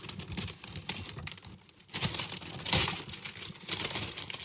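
A large gift is unwrapped, with quiet rustling and crinkling of wrapping paper that comes in uneven bursts.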